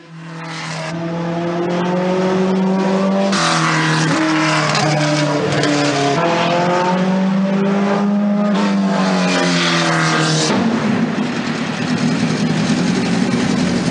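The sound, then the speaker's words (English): A car on a racetrack roars loudly and steadily, its engine pitch climbing, dropping and climbing again through several gear changes. “The next day, Arthur goes to the racetrack. Well, to drive.”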